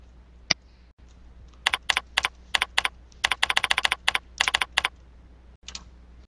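A web address is typed on a computer keyboard: one lone key tap, then irregular quick bursts of many crisp, clicky keystrokes, heard alone without talk.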